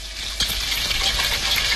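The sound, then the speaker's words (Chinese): Marinated shredded pork frying in hot oil in a wok, a steady, loud sizzle that holds evenly through the whole moment with a bright, hissing texture. “先将腌制好的肉丝滑熟，盛出控油”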